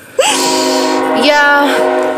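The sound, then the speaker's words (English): A passing train in the Midwest sounds its horn in one loud, sustained, multi-toned blast that starts abruptly and holds for about two seconds. “That's the train. On. Sorry about the train. We live in the Midwest.”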